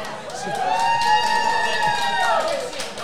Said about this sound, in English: Oh, the audience comes alive.